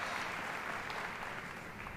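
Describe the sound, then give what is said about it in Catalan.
Concert audience applauding as the performers walk onto the stage, a soft, continuous wash of clapping that stays even throughout without any voices over it. “Els aplaudiments són perquè apareixen a l'escenari els intèrprets d'avui, el Quartet Casals i Alexander Melnikov.”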